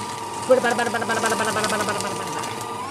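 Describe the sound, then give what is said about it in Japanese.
A paper shredder runs as an email is fed through it, a steady buzzing motor whir with a fluttering rattle that starts with a brief jolt, with voices mixed in. “本当にこの世から葬り去るためにですね、このシュレッダーにかけて消し去りたいと思います。”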